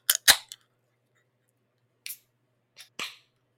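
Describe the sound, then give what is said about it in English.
A can of citrus single hop IPA beer cracks open in several sharp, brief clicks and snaps separated by silence, with the final pop followed by a short fizzing tail. “I love cans that actually have their information. In 3, 2, 1, crack.”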